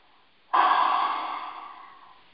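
A deep breath as a single long, breathy rush of air that starts suddenly at full strength and slowly fades, heard alone without talk.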